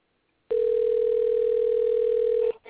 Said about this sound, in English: I'm going to dial them up, see if we can get them on the phone. We'll give them a ring, a ding, ding, the phone, and